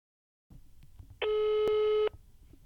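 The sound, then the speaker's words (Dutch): A telephone call being dialled, heard as one steady electronic tone lasting about a second, preceded by faint handling noise and then followed by quiet. “Laten we dus even bellen.”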